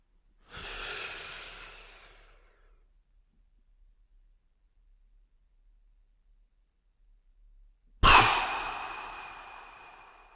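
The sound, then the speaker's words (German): A person breathes in with a long airy hiss, holds the breath through several seconds of near silence, then lets out a sudden loud breath that trails off. “Nochmals einatmen, anhalten und aushalten.”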